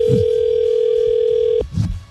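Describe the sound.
Telephone ringback tone on an outgoing call: one steady, unbroken tone that holds for about a second and a half, then cuts off abruptly, leaving faint low bumps.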